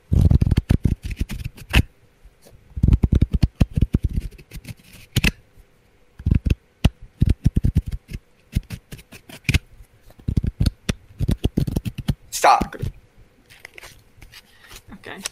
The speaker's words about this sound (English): Just center yourself and listen to the cards.